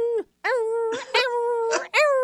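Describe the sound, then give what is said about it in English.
A human voice imitates a French bulldog barking and howling, with a few drawn-out, wavering whine-like howls broken by short yelping bursts. The pitch bends up and down within each cry, and the phrases are separated by brief gaps. “this dog would bark and howl. I mean, the bulldog, or the French bulldog particularly, has some really weird sounds that they make.”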